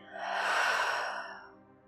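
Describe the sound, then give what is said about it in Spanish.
A single deep breath, in through the nose and out through the mouth during a guided relaxation, heard as an airy rush of air that swells and then fades away. “comienza inhalando profundo por tu nariz y por tu boca soltando todo el aire.”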